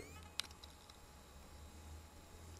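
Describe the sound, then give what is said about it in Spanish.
A sharp, distinct click followed by two fainter clicks, all within the first second, over a low steady hum. “el clic, es decir, igual que las palabras de Rafa Osuna, yo utilizo los clics.”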